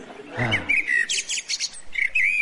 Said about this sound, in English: Oh, it's swooping after the blackbird. Go on, kill the chirpy little git.